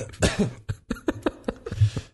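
Repeated coughing mixed with throat clearing, a run of many short, sharp bursts in an irregular rhythm, fairly loud and with no talk over them.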